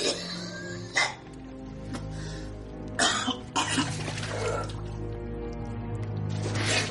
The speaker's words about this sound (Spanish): Agustín se acerca a él con los ojos muy abiertos y Pedro tose de modo exagerado.